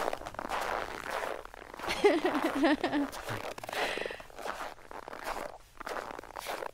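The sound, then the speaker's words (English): Shoes squeaking while walking on tightly packed snow: faint creaking crunches with one drawn-out, pitched squeak in the middle. “I think that sounds like somebody's wearing shoes too small for them and they're walking in the snow. Yes. I don't know about the too small part, but their shoes were like, well, it's just squeaking. Real tight snow”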